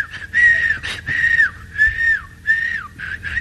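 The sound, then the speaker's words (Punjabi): Someone whistles a tune in several sustained, clear phrases, a few of them ending with a downward pitch slide, with no talk. “ਲਓ ਜੀ ਘਰ ਸੀਟੀਆਂ ਮਾਰਦਾ ਜਾਵੇ”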